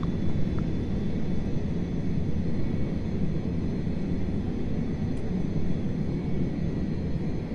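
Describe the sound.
An airliner on final approach to land gives off a steady, loud roar of engine and airflow noise, with no breaks and no voices.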